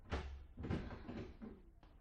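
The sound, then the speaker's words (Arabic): A door in a house is opened, giving a few faint knocks and dull thumps spread over a couple of seconds. “افتح الباب ده.”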